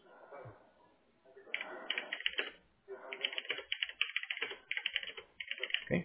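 Typing on a computer keyboard while entering notes into a system: rapid, crisp key clicks in dense bursts after a quieter opening, with short pauses between runs.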